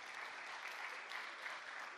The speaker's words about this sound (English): yes, you can clap for that